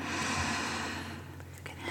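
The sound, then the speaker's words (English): A slow, deep breath in during a trance relaxation exercise, a faint hissing draw of air that fades over about a second before a quieter stretch. “Are you ready to breathe deeply with me? In”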